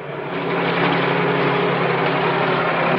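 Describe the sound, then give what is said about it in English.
The low engine drone of a huge crane raising car wreckage from the base of a cliff, a constant even rumble with no breaks. “Outside the city, a huge crane raises the wreckage of the car from the base of the cliff.”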